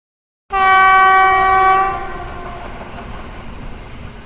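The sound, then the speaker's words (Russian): A train horn blows as a passenger train prepares to depart from a St Petersburg railway station, bound for Berlin. One long, loud, steady blast holds for over a second, then fades into a low, continuous rumble. “Утром Варшавский вокзал гудел. Готовился к отправке поезд на Берлин.”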